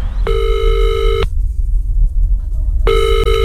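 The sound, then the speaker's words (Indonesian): Telephone ringing on the line as a call is placed: two long, buzzy ring bursts separated by a quiet pause, over low background hum. “Sebentar, aku harus telepon Ridwan.”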